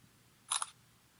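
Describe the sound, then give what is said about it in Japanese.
A camera shutter fires for one photo, a quick, crisp double click standing alone against a quiet background. “撮ります。”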